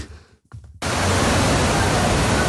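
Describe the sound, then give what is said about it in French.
Torrential rain pours down on New York City during Storm Ida amid flooding, a dense, steady roar of falling water that surges in loud after a brief quieter start and holds unbroken. “Ce que vous entendez là, Dimitri, c'est un extrait d'une vidéo tournée par un habitant. Des trombes d'eau s'abattent sur la ville de New York et provoquent d'importantes inondations, conséquence du passage de la tempête Ida.”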